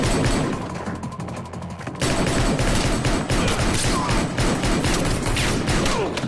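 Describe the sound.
Gunfire from a film gunfight scene: dense, continuous volleys of many overlapping shots and bursts, staying loud throughout with a sharp jump in intensity partway through.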